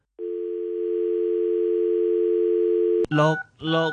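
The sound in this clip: A steady, unbroken telephone tone hums for about three seconds, then a voice breaks in with a few short syllables.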